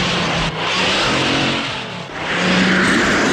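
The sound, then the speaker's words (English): Stock car engine revving loudly as it speeds ahead on an icy track, a continuous roaring drone that dips briefly midway and then surges again, with no talk. “She squeezes between several stock cars and speeds ahead.”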